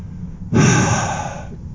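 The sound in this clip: A deep breath drawn in on instruction: one strong, breathy intake begins partway through, then trails off into a long, softly fading exhale-like hiss. No talking is heard.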